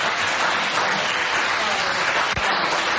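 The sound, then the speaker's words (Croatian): Applause fills a half-empty parliament hall: steady, dense clapping from a modest number of hands runs evenly for about three seconds, with no voices standing out. “Osim aplauza u polupraznoj skupštinskoj sali nije se čulo ništa više”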